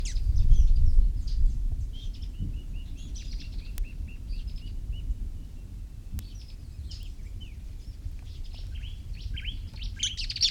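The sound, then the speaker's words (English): Birdsong from two adult birds feeding two young, singing between feeds. Many short, high chirps and brief phrases are scattered throughout over a steady low rumble. “Two birds involved, and they're feeding two young, singing in between.”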